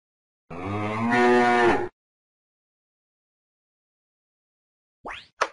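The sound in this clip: An ox gives a single long, low moo, followed after a pause by a brief spoken word.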